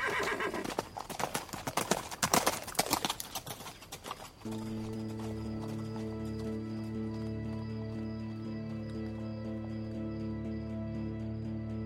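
Hoofbeats of a galloping mare pound in a rapid clip-clop rhythm for a few seconds, then give way to a steady sustained tone.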